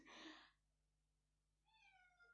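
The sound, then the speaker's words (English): A pet cat meowing once, a faint, short call following a brief burst of noise and a quiet stretch. “Sorry, that's my cat.”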